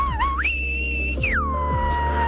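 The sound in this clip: A single whistle from a whistled language, carrying the name of a colour: it starts low, wavers, leaps up to a high held note, then glides smoothly back down and trails off, clear and alone.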